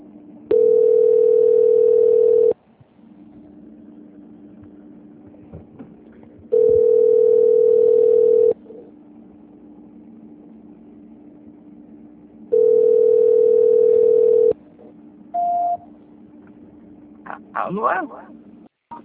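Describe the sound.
Telephone tone heard while a call is being transferred: three long, steady beeps about four seconds apart, then one short beep at a higher pitch. A low background hum runs underneath throughout.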